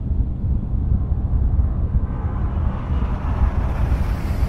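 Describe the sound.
Steady, heavy low rumble of a small airplane taxiing slowly to the gate, a dense continuous drone with airy hiss that holds an even loudness throughout.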